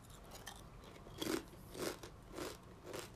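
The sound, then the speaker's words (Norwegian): Potato chips crunched while eating, a steady run of crisp, crackling bites with several loud crunches spaced at even intervals and fainter ones between. “Jeg skal bare spise chipsen”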